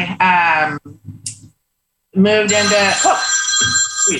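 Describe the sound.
A phone rings during a spoken interview, its tonal ringtone sounding in two loud bursts separated by a short silence, with a voice speaking at the same time.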